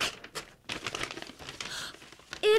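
A paper envelope is opened with faint bursts of crinkling and rustling paper, with a louder short sound right at the end.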